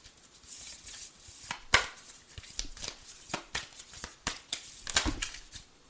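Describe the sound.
Playing cards are shuffled and handled during a card reading as cards are drawn. There are many quick, irregular papery bursts of varying loudness, with no talking.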